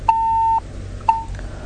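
Phone-line tone after a caller is cut off during a call-in: two steady, mid-pitched electronic beeps, the first about half a second long and the second shorter, over faint background hiss.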